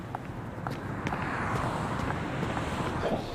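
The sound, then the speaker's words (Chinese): Car driving away, heard as a steady broad rumble of engine and road noise mixed with wind. It swells slightly after the first second and then holds at an even, moderate level. “行，那你开车走吧。”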